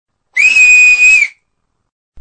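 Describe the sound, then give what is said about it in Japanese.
A person whistles with the mouth to call a bird: one loud, clear, sustained high note held steady for about a second, then stops. “リンネが口笛を吹くと、遠くの方から一羽の白い鳥が現れた。”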